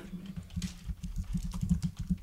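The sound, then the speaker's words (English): Typing on a computer keyboard: a quick, irregular clatter of many keystrokes, fairly soft and steady throughout, with no voices. “Here, I'm going to type it up.”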